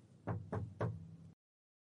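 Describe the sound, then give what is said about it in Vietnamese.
Three firm knocks land on an office door, evenly spaced and dull, with a low thud to each. Silence follows. “Bên ngoài có tiếng gõ cửa vang lên.”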